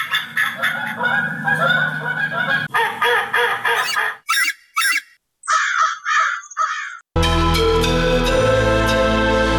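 Honking and cawing of birds at a protected wetland. A dense run of overlapping calls gives way to several separate loud bursts, and then music takes over at the end.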